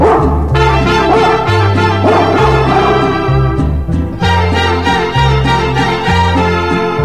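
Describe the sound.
Dog barking and yipping runs loud and dense throughout, repeated in quick bursts over sustained, steady low tones.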